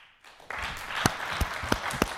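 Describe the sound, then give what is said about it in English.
Congregation clapping during a church service: a burst of applause starts after a brief quiet moment, with a few louder, evenly spaced claps standing out toward the end. “Clap if you want to pray more.”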